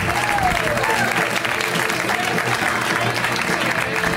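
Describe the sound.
A comedy show audience applauds a comedian being brought on stage, with loud, dense, steady clapping that holds evenly from start to finish.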